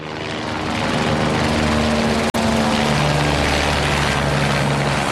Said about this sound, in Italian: hanno fatto l'abitudine a questo rumore. Sono i motori degli elicotteri e dei Canadair che prelevano acqua dal lago e la scaricano sui fronti di due